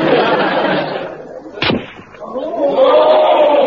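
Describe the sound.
A rifle shot fired at a target cracks out once, loud and sharp, with people talking before and after it.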